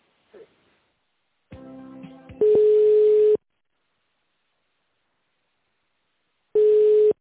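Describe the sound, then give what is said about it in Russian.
Telephone line tones sound while a call is being transferred: after a short muffled noise and a brief buzzing stretch, a loud steady beep holds for about a second, then silence, then a second identical beep. “Так, это Андрей Усачев у нас тендерами занимается. Переключу вас на него.”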